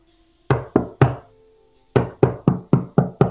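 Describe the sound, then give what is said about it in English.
Someone pounds a secret knock on a wall: three heavy thuds, a short pause, then six more in an even rhythm. The knocks are loud and alone. “Yeah, we're going to pound on the wall with our secret knock, and it's going to sound like this.”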